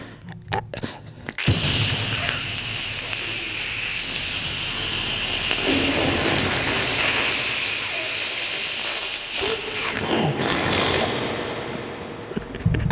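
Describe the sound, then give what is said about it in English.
Butter sizzles in a hot pan, a loud, steady hiss that starts abruptly after about a second, holds for roughly ten seconds, then thins out toward the end. “Like the pan, you put butter in the pan and just go. Have some gain. Some gain. Into the pan it goes. Now it's time to flip it over.”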